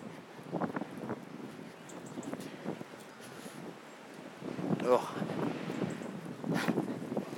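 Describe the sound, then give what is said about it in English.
Wind blowing outdoors on a cold, biting day: a steady, rough rumble and hiss with gustier swells toward the end and scattered light rustles, at a moderate level. “Wind is really biting.”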